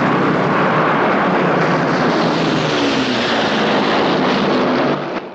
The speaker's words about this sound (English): Fighter aircraft fly in formation over a small village.